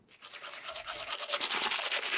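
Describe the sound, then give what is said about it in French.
Someone brushes their teeth with a toothbrush: quiet, hissing scrubbing strokes repeat in a loose rhythm and grow somewhat louder toward the end, with no talk. “Vous l'avez sans doute, j'espère, utilisé ce matin, la brosse à dents, un objet tout simple qui est devenu indispensable à nos vies modernes”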